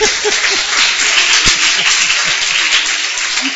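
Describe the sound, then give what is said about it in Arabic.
Audience clapping in answer to a call for strong applause: dense, sustained clapping that stays steady and fairly loud throughout, with faint voices underneath. “انا عايز تسقيفه جامده.”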